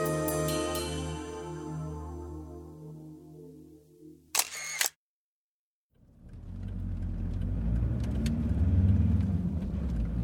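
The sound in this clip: Steady car engine and road rumble from a family's drive to the airport fills the second half, following a stretch of music, a brief clattering burst and a short silence.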